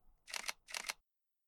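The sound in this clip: Two quick camera shutter bursts as photos are taken of someone posing, each a dense, bright mechanical clatter lasting about a quarter second, the second following closely after the first, then silence.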